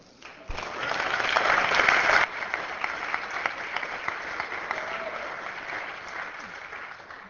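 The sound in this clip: Applause welcoming a lawmaker's mother and sister in a legislative House chamber. It starts abruptly and is fullest for the first couple of seconds, then carries on at a steady, slightly softer level to the end.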